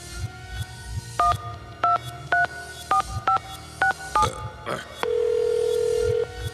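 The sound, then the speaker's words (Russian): A telephone call is dialed with a quick series of several sharp touch-tone beeps at uneven intervals. One long, steady, lower tone follows, all over faint background noise. “А я вот сейчас вот ему позвоню.”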